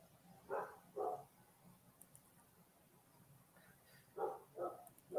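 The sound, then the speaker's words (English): Dogs bark in two pairs of sharp, mid-pitched barks, with a quiet gap between them and another bark at the very end, fairly faint over low background noise. “I got to figure out why my dogs are losing their shit right now.”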